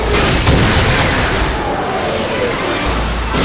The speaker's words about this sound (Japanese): デコイ発射する。